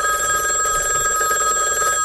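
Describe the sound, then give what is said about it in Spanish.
A telephone ringing: a steady, continuous electronic ring with bright, sustained tones that holds level for about two seconds and then cuts off. “Uy, atendeme el teléfono. No, no quiero. Atendé el teléfono.”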